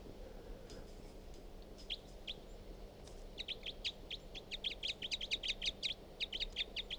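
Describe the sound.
A bird calls with a few scattered high chirps, then a quick run of many sharp, high-pitched notes, faint over a low steady hum.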